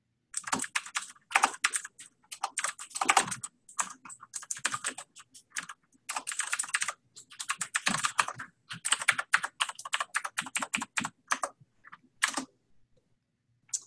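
Fast typing on a computer keyboard while filling in a web form: bursts of crisp key clicks separated by short pauses, loud and clear with no talk over them.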